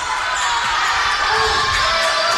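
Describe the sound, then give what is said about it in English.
Basketball dribbled in the backcourt during a women's basketball game, the bounces soft and hard to pick out under a steady, loud wash of crowd noise and cheering that fills the whole stretch. “still with the dribble”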